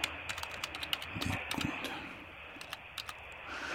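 Keys clatter on a computer keyboard in quick, irregular bursts of light clicks, faint and heard alone.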